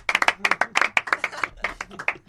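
Brisk hand clapping in quick succession, with many sharp claps in a lively, slightly uneven rhythm and brief gaps between bursts.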